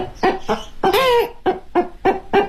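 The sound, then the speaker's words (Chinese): A performer's voice imitates a hen and a rooster using a circular-breathing mouth-sound technique. Loud, short clucking bursts come in a quick rhythm around one longer, wavering, crow-like call in the middle. “它这种声音，用那个雄鸡的声音。”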